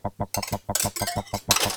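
A metal whisk is fitted into the chuck of a battery-powered mixer in a ship's galley, giving a quick, regular run of many light metallic clicks and clinks, fairly faint and evenly spaced.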